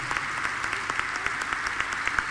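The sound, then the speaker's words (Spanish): Crowd applause at a political event for a provincial vice-governor: a dense, steady patter of many hands clapping at moderate loudness for the whole stretch, with no break. “Parate, así te aplauden, parate.”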